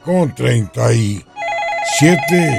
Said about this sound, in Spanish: Entra una llamada.